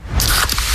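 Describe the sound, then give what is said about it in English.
Pepsi Zero Sugar cola pouring, a bright fizzing hiss that starts almost at once and holds steady and fairly loud through the short moment, with faint crackling bubbles. “You hear that? That's the sound of Pepsi Zero Sugar, the better tasting, more refreshing Zero Sugar Cola. Listen to that endless pour.”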